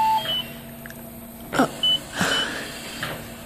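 Hospital monitors emit a few short electronic beeps at differing pitches, scattered among brief bursts of noise at moderate loudness.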